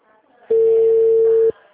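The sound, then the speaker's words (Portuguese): A single telephone ringback tone sounds as a call is dialed: one steady, low-pitched tone lasting about a second, starting and stopping abruptly, with only faint background noise around it. “Eu tô ligando pra aquela mulher do Master.”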